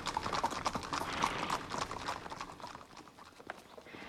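Hooves of about a dozen officers' horses riding into a courtyard: a dense, overlapping clatter of many clip-clopping hooves, steady at first and easing slightly toward the end.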